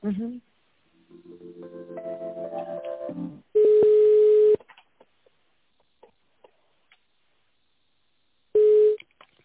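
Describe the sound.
Electronic telephone tones as a call is being transferred: a sequence of stepped notes climbing in pitch, then a long steady beep, a quiet gap with faint clicks, and a second steady beep.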